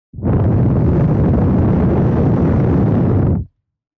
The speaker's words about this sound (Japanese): 一度息を吹きかけるから、じっとしていてくれ。